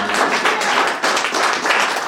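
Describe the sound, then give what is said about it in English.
An audience clapping their hands during a Sunday church service at a crusade in Lesotho: dense, steady clapping that continues without a break throughout. “Come on, clap the hands for Jesus.”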